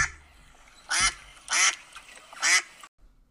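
Three loud duck quacks from a sound effect, each a raspy, nasal burst, evenly spaced with quiet gaps between them and no voices.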